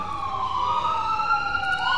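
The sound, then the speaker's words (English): An ambulance siren wails as it passes near a historic site on federal parkland. The steady, loud electronic tone runs for the whole two seconds with slow pitch sweeps, and there are no voices. “got an ambulance going by.”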